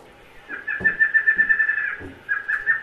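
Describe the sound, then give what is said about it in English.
A tanager, a South American bird, calling in a fast rhythmic run of high, buzzy pulsed notes, then a brief pause before another quick series; no voices. “Now, even this tanager, this has different variations depending on where you are in South America, because colors change a little. But it's still the same bird.”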